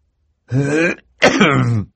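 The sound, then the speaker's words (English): A man's voice performs a throat clearing in two gruff, voiced rasps separated by a brief pause, each lasting about half a second. “looked up and cleared his throat.”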